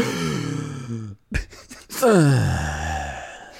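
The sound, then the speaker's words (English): A person imitates an orgasm moan made while inhaling. A drawn-out voiced gasp breaks off, a few short breathy sounds follow, and then a louder, wavering moan slides downward in pitch. “I've never heard an inhaling orgasm. That was a new experience for me.”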